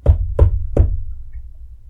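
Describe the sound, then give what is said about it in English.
Knocking on the wooden door of a hut: three firm, evenly spaced knocks with a dull, low thud, heard alone. “a worried woman bangs on the door of a hut.”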